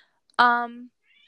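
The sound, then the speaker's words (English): A male cat gives a single short, clear, tonal meow, heard alone against silence. “Oh, that's him meowing.”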